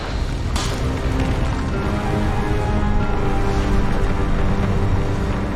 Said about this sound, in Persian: داره منفجر میشه.